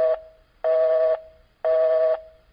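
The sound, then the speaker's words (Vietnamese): An outgoing telephone call rings unanswered, its ringing tone repeating as steady buzzing pulses about half a second long with short gaps between them, with no voices. “Điện thoại đổ chuông rất lâu, nhưng không thấy ai nghe máy.”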